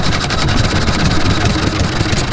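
An Olympia 3.5-horsepower engine idles in a steady, loud drone with a fast, even pulsing chug that holds unchanged throughout, heard alone without voices.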